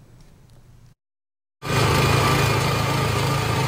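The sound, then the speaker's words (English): A motorized sprayer drones as disinfectant is sprayed through Jiaoxi hot spring town and around its hotels. A faint hum cuts to a brief silence, then a loud, steady engine roar takes over. “Disinfectant is sprayed in every nook and cranny. Jiaoxi and areas near hotels are getting a thorough cleanup to give peace of mind to tourists.”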